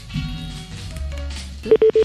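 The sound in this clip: A telephone call being dialled and connecting: after quieter low sounds, a few short, steady beeps of a ringing tone pulse evenly at the end.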